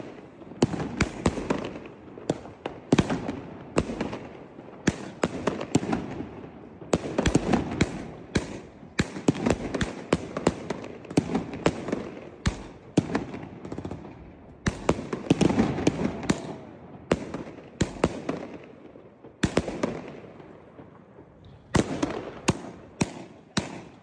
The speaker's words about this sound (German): Was die Big Boom Cakes von Mr. Pyro Manager können, seht ihr jetzt. Los geht's mit der Red and Blue.